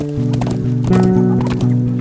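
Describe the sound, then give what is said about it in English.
Hooves clip-clopping as a horse is ridden away: a steady, even run of loud hoofbeats over sustained musical tones. “I swung into the saddle and rode away, looking back over my shoulder.”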